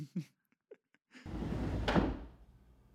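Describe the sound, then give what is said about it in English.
A chair gets pulled into a door frame in a ghost film scene: a few faint ticks, then a sudden scraping rush that builds to one knock-like peak and gradually fades out, fairly quiet overall. “That's a chair gets pulled into a door frame”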